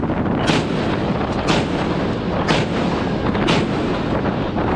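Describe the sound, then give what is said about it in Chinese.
A warship's main gun fires a four-round salvo during live-fire training at sea. Four heavy booms come at even one-second intervals over a dense, constant roar. “主炮系统进行临战准备。 接收目指，一组四发，放。”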